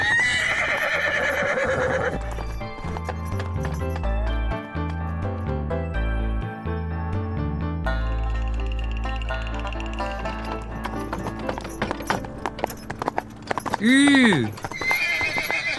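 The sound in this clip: A horse clip-clopping as it is ridden by a rider with an injured foot, set under steady music, with a sharp neigh rising and falling near the end.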